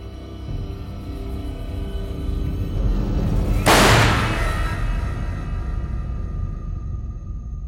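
A single gunshot rings out midway as a sharp, loud blast, with a short fading tail over a steady low rumbling background.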